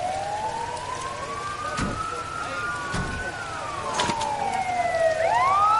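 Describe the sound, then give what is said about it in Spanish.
Fire engine sirens wail as the trucks arrive on a street in torrential rain, rising and falling steadily over a constant background wash with a few sharp knocks. A second siren joins near the end, the sound growing louder. “Llegan los bomberos.”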